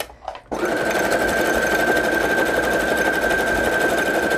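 A sewing machine runs zigzag stitches on fabric bookmarks, starting abruptly after a brief quieter moment and then holding a loud, steady mechanical whir with a thin constant whine riding over it.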